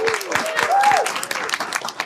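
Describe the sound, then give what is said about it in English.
A round of applause for a panellist introduced at a panel on the future of work, steady crowd clapping with a voice speaking over it throughout. “So we've got Ryan Patel, round of applause.”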